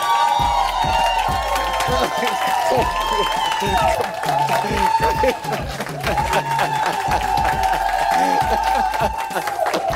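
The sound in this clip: A studio audience cheers and applauds a Grammy-winning gospel singer as she is welcomed on stage, with whoops and continuous clapping. A host talks loudly over the crowd.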